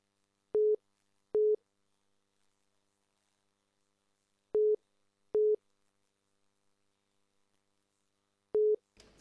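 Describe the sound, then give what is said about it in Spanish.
A phone busy tone sounds after a dropped call: five short, identical mid-pitched beeps, two pairs and then a single one, separated by long silent gaps, with a faint burst of noise at the very end. “Se nos fue también la llamada.”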